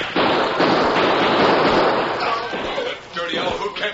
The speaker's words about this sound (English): My gun! Slug hit my gun!